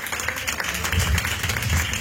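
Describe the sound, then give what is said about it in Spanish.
A church audience applauds with dense, loud, continuous clapping that holds a steady level throughout. “Denle una ofrenda de palmas, fuertes a nuestro Dios.”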